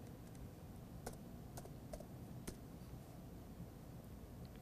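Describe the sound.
Typing on a computer keyboard: a few faint, scattered key clicks stand out over a steady low hiss, irregular in timing and with no voices.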